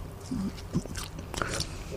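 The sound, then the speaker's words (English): Someone chews food while talking, soft moist mouth noises and bites mixed in with a voice. “give an Indiana take while you're chewing. Give an Indiana basketball take while chewing.”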